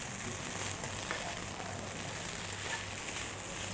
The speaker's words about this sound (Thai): เสร็จเรียบร้อยแล้วค่ะข้าวผัดปลาดุกย่างของเรานะคะ